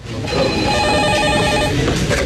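A telephone ringing at a bank office desk early in the morning, a continuous loud electronic ring with steady tones over a dense backdrop, without talk.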